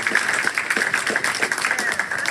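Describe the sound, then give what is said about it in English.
A church audience applauds with brisk, steady hand clapping, many sharp claps at a fairly even level. “Can we applaud those who like, yo, that's beautiful, by the way.”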